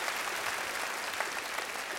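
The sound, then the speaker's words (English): A church audience claps during a sermon. The applause is thick and continuous at an even loudness, forming a broad wash with no voices on top. “come on and clap your hands at all of our locations”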